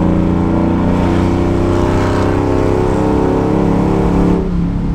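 A car engine revs under hard acceleration from around 3,200 rpm with the throttle floored: a loud, dense, continuous roar with a steady droning pitch that eases off abruptly near the end.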